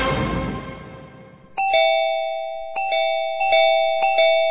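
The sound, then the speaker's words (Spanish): A doorbell rings repeatedly, its bright ding-dong chimes sounding in quick succession and each tone ringing on briefly. A louder, fading sound comes first and ends before the first chime. “¿Pero quién timbra como loco?”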